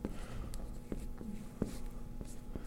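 Writing the letter C on a board during a lesson, a series of faint, scratchy ticks and brief strokes over a steady low hum, with no talk.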